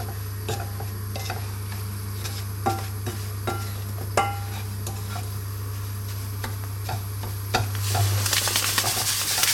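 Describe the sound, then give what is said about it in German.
Breadcrumbs are stirred as they brown in a frying pan. A soft, steady sizzle runs under a few light clicks and scrapes of the utensil against the pan, and the hiss swells near the end. No one talks. “Und jetzt tun wir die Brösel dazu. Und jetzt müssen wir ein bisschen umrühren, damit alle Brösel schön braun werden.”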